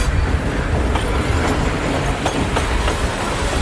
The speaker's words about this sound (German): Na, erkennt ihr's? Ja, das ist ein Zug. Und solche Geräusche haben jetzt viele angehende Musikproduzenten an verschiedenen Bahnhöfen aufgenommen